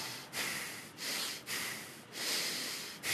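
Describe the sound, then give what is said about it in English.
A person imitates anger with rapid, intensified breathing through the nose: five sharp, hissing nasal breaths in quick succession, each separated by a brief pause, faint and with no talking. “It's a dangerous thing to do on a platform, breathe through your nose exclusively, right? Long-nosed, the rapid, successive, intensified breathing is accompanying anger.”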